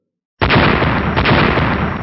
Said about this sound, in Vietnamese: Liên tiếp truyền đến tiếng nổ động trời, quang tráo màu trắng rung động kịch liệt, vặn vẹo lắc lư.